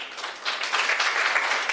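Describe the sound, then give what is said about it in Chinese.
A church audience applauds during a Chinese-language sermon, giving a soft, faint, steady patter of clapping that lasts under two seconds. “这个掌声是给我鼓励我一下。”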